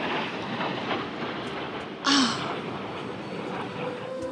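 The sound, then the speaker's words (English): Blue Angels military jets roaring overhead at a beach: a steady, broad rumble that fills the whole stretch, with one brief sharper sound near the middle. “And there's the Blue Angels. Can you hear them?”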